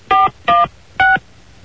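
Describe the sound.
Telephone keypad tones sound while a number is entered: three short, loud, clean dual-pitched beeps, the first two close together and the third after a slightly longer gap, with no voices.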